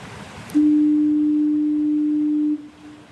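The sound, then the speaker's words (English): The Fort Amherst foghorn in Newfoundland sounds one long, low, steady blast of about two seconds, loud and even, then cuts off into faint background hiss. “Okay, this is a recording of the Fort Amherst foghorn.”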